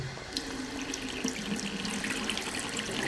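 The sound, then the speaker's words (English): Tap water runs steadily into a sink while tomatoes are rinsed, making a continuous, fairly soft hiss and splash with small irregular spatters throughout and no voices. “I'll rinse the tomatoes immediately.”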